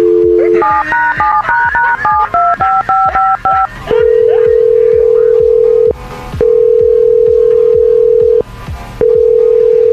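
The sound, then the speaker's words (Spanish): A telephone number is dialed on a prank call: a rapid series of short keypad tone beeps at steady pitch, then loud, long ringing tones repeating with brief gaps between them. “Entonces, ¿lista para marcarle, Silvia? Sí, sí, Lo único que tienes que hacer es decirle lo que ya te dije, que hay un vato ahí que le vas a dar 25 mil pesos. Vamos a marcar.”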